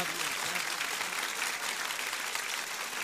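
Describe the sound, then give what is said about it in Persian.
Continuous hand clapping from a group, dense and even throughout, fairly faint, with no clear pauses or individual claps standing out. “دست بزن برای بی بی امشب.”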